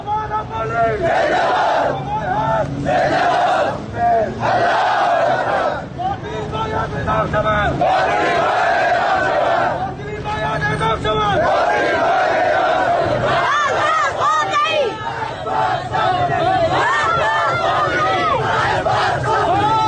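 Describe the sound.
A protest crowd in Rask, Iran chants slogans with many voices shouting together, loud and continuous, with brief dips between phrases.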